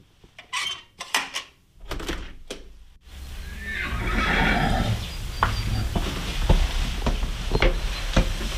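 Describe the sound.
Hungry horses neighing in a stable early on a foggy morning. Several loud whinnies and snorts come first, then give way to continuous rustling and clattering.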